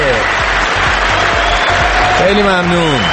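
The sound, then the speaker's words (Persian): Loud applause for a speaker runs throughout, with a voice rising over the clapping near the end. “آفرین کف مرتب بزن براش”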